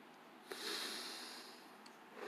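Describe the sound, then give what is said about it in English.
A person takes a single long breath in, a soft airy hiss that swells and then slowly fades, quiet and on its own. “So now I take a breath.”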